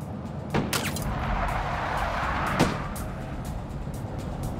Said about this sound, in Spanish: Obligó al conductor a acelerar.